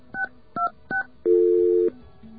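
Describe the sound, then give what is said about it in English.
Three short touch-tone beeps from a telephone line are followed by a longer, steady tone as a call to a voicemail system goes through, then a faint brief tone. “That little tone means it's going through.”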